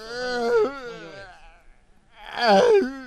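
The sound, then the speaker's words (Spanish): A person wails and sobs into a microphone in two drawn-out, pitch-wavering vocal cries, loud and strained, with a brief quieter pause between them. “Parece que te están ahorcando. Ese es el problema, bro. y ahorita no llores en el micrófono, güey.”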